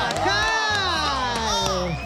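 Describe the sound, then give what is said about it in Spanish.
A studio audience cheering loudly: many overlapping shouting and whooping voices that rise and fall together in a dense, continuous burst. “Che, un aplauso para nuestro amigo Gustavo Caraba”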